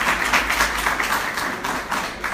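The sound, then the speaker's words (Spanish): A church audience claps for the Lord in a short, dense burst of many hands, with the clapping held at a steady loudness throughout. “Dele ese aplauso al Señor y dígale gracias, Señor, por hacerme entender.”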